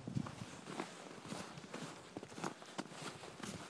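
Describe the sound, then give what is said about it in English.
Footsteps crunch through snow on a shoveled sidewalk in Niagara-on-the-Lake on a December afternoon, with many steady, gritty steps in a continuous walking rhythm. “walking through snow. Well, sidewalks are shoveled, but walking through snow and almost falling.”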